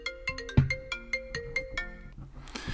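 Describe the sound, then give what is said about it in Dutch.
Incoming call on a phone: the ringtone plays as a quick, bright melody of many short, evenly spaced electronic notes, fairly faint. A brief burst of noise follows near the end. “Ik heb zijn voicemail ingesproken en hij belt terug.”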